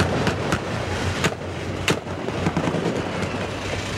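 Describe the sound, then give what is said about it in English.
Gunfire at a stopped convoy carrying civilians, with French troops shooting back. A few sharp, irregularly spaced cracks stand out over a constant loud rumble. “Convoys just stopped and we've started to be shot at. French troops are shooting back.”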